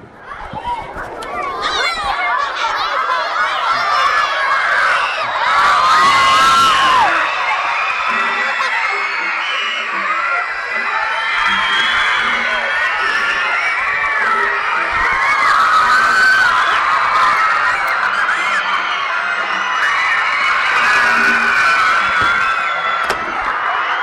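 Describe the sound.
A crowd screams and cheers continuously at high, loud intensity, with shouting voices and some talking mixed into the din throughout.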